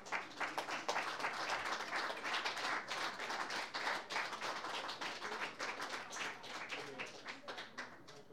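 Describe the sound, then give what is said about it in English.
Audience applause welcoming a songwriter to the stage: a dense, steady wash of many hands clapping that holds at an even level throughout, with crowd voices mixed underneath. “Please give Rich Eilbert a big welcome.”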